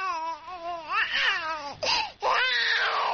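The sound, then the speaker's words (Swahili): A baby carried on a woman's back cries at a cultural park, a few strained, wavering cries with gliding pitch. The voice breaks off briefly near the middle, then resumes loudly. “mtoto aliyebebwa mgongoni na mwanamke huyo alianza kulia alipoona jinsi watu wengi walivyokuwa wakiwatizama.”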